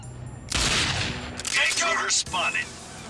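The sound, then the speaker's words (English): Gunfire in a video game: a few bursts of rapid shots, with a player talking between them. “Can I shoot some people down there now?”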